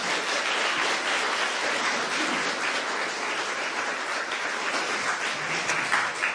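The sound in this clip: An audience applauds to welcome a speaker at the West End Festival, with dense, steady clapping that holds at an even level throughout.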